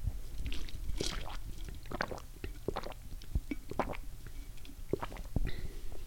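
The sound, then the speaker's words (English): Sips and swallows of ice water: many small wet gulps, clicks and sloshes in an uneven rhythm, fairly faint, with no talking. “that was the sound of me drinking some of that water.”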